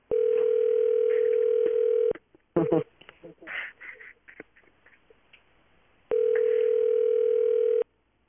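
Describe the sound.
Telephone ringback tone heard while on hold with a helpline: two long, steady, even tones, the first at the start and the second near the end, separated by a stretch of people talking.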